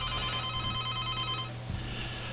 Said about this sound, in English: We got the phones are ringing off the hook.